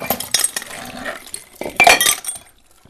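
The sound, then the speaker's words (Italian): An old glass wine bottle is handled at an old fort. It gives a few sharp clinks and knocks of glass, with soft rustling and handling noises in between. “Guarda, guarda che bella questa bottiglia, questa è sicuramente vecchia.”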